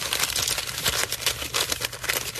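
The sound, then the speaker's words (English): A paper letter is folded up by hand, giving loud, continuous crinkling and rustling with many sharp crackles throughout. “Well, we'll just fold this letter up.”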